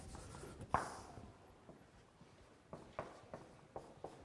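Writing on a board in a classroom: one sharper tap followed by a few faint scratchy strokes and ticks, quiet and with no talk.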